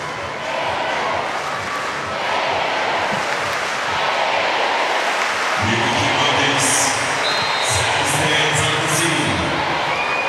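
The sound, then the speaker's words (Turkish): Crowd in the Ankara Sports Hall chanting "Türkiye" during a volleyball match; a rhythmic, pulsing crowd noise at first, then from about halfway a fuller, sustained mass of voices that stays loud to the end. “Ankara Spor Salonu'nda başkentte Türkiye tezahüratları Eylül'de ayakta.”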